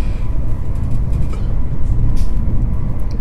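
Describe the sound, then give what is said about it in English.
A passenger train in Italy rolls along with a steady, dense low rumble and hiss of wheels and carriage noise, even in loudness throughout, with no voices. “I like this train. It's very... I find it very pleasant. Pleasant. Very relaxing. It's a wonderful train ride.”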